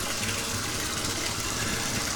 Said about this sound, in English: Time to start adding a little bit of warm water.